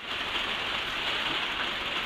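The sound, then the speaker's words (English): Rain falling as a steady, dense hiss of drops that stays even and unbroken throughout, with no voices or other sounds. “Elsie Larson, who was kind enough to send the sound of rain,”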